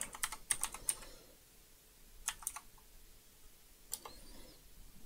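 Quiet typing on a computer keyboard: a search word is tapped out in three short clusters of light key clicks separated by pauses, with no speech.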